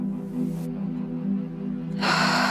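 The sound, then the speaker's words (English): A person takes a deep breath in during a guided breathing exercise, a long, steady, airy inhale that swells louder near the end over a low sustained hum. “Fill your lungs with nourishing air. And let it all go. Breathe in.”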